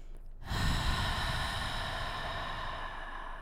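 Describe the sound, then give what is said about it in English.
Deep belly breathing during a yoga hamstring stretch: after a brief quiet start, one long, steady, airy breath runs unbroken to the end, with no talk. “Really use this time to focus on that massive bottom belly breath.”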